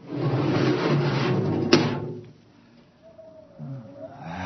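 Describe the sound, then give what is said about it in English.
An airlock door opens on a ship with a broad, loud hissing rush that ends in a sharp clunk, then falls to near quiet with a faint low hum. “Open the airlock.”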